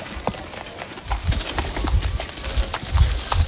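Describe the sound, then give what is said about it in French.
Hooves clip-clop steadily from a horse-drawn cart that collects garbage through local neighborhoods, a brisk, even run of hollow knocks that continues alone for the whole stretch. “Le projet associe de nombreux habitants de la localité, comme Aliou Konaré, qui contribue au ramassage des ordures à l'aide d'une charrette.”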